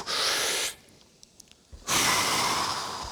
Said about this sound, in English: Okay, we're going to pause. Everyone take a deep breath for me.